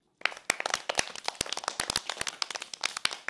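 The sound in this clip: Children clap for a classmate, a scattered patter of many uneven hand claps that starts abruptly and keeps going at a lively, irregular pace.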